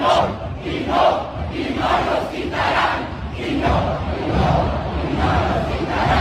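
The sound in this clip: A large crowd marches at a rally, a dense roar of many voices with rhythmic surges of shouting or chanting that rise and fall steadily throughout, loud and continuous.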